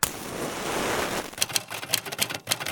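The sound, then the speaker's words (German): A Remington typewriter's type bars strike the clamped paper in the dark, a quick, irregular run of clacking hits that follows a steady hiss. “Dort im Streichholzlicht können sie jeweils zwei Typenhebel ausmachen, die sich rhythmisch über das eingespannte Papier bewegen.”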